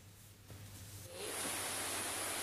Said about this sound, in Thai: ภาพนี้ครับคุณครูเขาบันทึกเอาไว้ได้น้ำไหลแรงมากนะครับแล้วก็น้ำเป็นสีแดงเป็นน้ำป่าแบบนี้น้ำลักษณะมีสีขุ่นครับแล้วก็ไหลลงพื้นที่ลุ่มต่ำอย่างรวดเร็ว